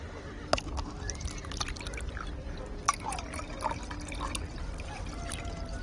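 Zamzam water is poured and served to guests, heard as faint trickling and splashing liquid with a couple of sharper taps standing out.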